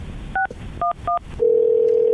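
Touch-tone dialing on a telephone to place a call: three short dual-pitch key beeps with brief gaps, then a loud steady line tone that holds to the end. No voices.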